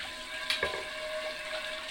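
Water running while a pan used to sear pork is washed out: a steady hiss with a faint tonal hum, broken by two brief knocks near the start.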